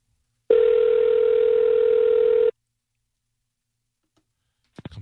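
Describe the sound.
A telephone dial tone heard while dialing out: one steady, mid-pitched hum lasting about two seconds on its own, followed after a pause by a couple of short clicks.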